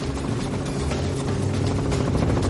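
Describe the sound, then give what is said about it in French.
Helicopter rotor and engine noise makes a loud, steady, broad whirring drone that continues without a break for the whole clip. “ce sera l'hélicoptère.”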